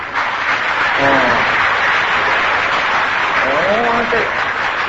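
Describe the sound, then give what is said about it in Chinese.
Loud audience applause, dense clapping that fills the whole stretch at a steady level, with brief voices rising above it twice. “这鼓掌这么大声，可能新加坡的男人都这样子了。”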